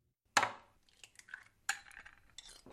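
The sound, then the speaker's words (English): Kitchen clatter from cooking a sausage and cheese omelet: a few sharp clinks of utensils against pans, with softer scraping and tapping between them, all fairly quiet. “What are you making this morning? A delicious sausage and cheese omelet.”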